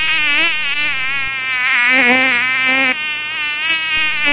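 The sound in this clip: A mosquito buzzes in a thin, high, whining drone with a wavering, slightly quavering pitch. The drone runs steadily and loudly for the whole stretch, with no voices.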